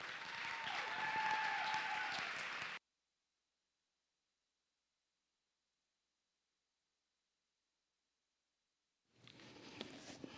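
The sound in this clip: Audience applause welcoming a speaker at a worship gathering, a dense burst of clapping for about three seconds that cuts off abruptly into silence before faint noise returns near the end.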